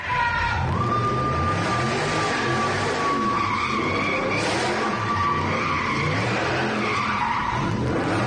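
Cars drifting fast in circles at night with people hanging out the windows: a loud, continuous, high tire squeal over roaring engines, holding steady throughout without a break.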